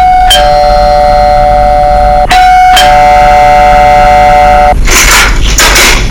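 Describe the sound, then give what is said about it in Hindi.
A doorbell ringing: loud electronic chime tones struck a few times, each ringing on steadily, followed by a couple of harsh, noisy bursts. “अचानक ॿाहिरि घंटी वॼंदी ऐं तू जल्दी सां उथी करे दरवाजो खोलण लाइ ॿाहिरि वेंदी।”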